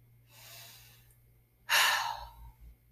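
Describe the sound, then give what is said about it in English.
A long, deep breath during a guided relaxation exercise: a soft, drawn-in inhale, then a louder, breathy exhale that trails off slowly. “Start by taking a long, deep breath and letting it out slowly.”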